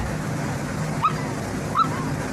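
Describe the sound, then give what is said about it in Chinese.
A brown dog, a Christmas present, gives two short, high whimpers spaced about a second apart, faint over steady background noise. “你给你儿子送了一条狗做圣诞礼物。”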